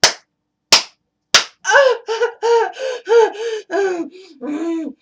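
Three sharp hand smacks on buttocks, evenly spaced, followed by a run of breathy gasping moans.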